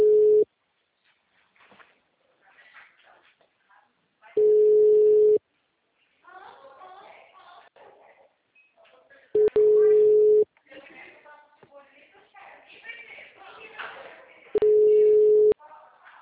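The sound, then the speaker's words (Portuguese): Ringing tone of an outgoing telephone call: four steady, low-pitched tones of about a second each, spaced several seconds apart. People talk quietly in the gaps between the tones. “Dona Rita, estou tentando ligar para a senhora, tá?”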